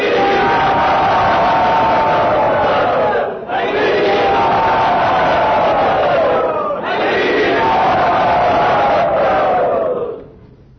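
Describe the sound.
Loud cheering from a crowd welcoming a guest at Sri Sri Radha Gopinath's temple: a sustained roar of massed voices, shouting enthusiastically, with two brief dips before it swells again and then fades at the end.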